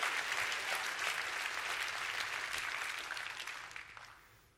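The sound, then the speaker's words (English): A church audience claps and applauds during a worship service, dense and steady throughout before tapering off in the final second. “Come on, why don't you put your hands together. Make some noise for Jesus.”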